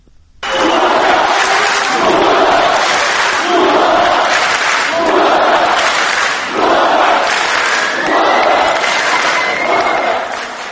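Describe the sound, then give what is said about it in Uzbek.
A Turkish TV talent show audience shouts and cheers loudly, chanting a name over and over in a steady rhythmic pulse for the whole stretch. “Bu shovqin yetenek sizsiniz tanlovi tomoshabinlari shovqini.”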